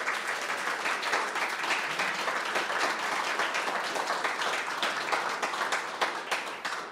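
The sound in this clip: Applause from an audience welcoming a discussion panel at a debate on the word "wild": steady, fairly soft clapping from many hands, sustained evenly for about seven seconds with no voices over it.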